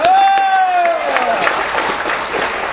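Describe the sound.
Applause from an audience at a Vietnamese Buddhist farewell gathering for a venerable monk: a dense, steady patter of many clapping hands that lasts throughout, with a sustained tone fading over the opening second.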